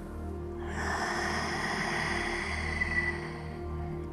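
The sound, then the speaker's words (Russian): A slow exhale follows a breath in through the nose during a relaxation exercise. The airy, steady breath lasts about three seconds over a soft, sustained tonal backdrop. “Вдох через нос. Наполняем воздухом живот, диафрагму, легкие. Выдох.”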